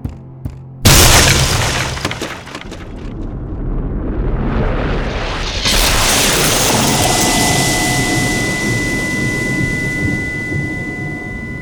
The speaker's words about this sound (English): as you do it, the bow breaks and an immense energy explodes from the bow, knocking the general Breton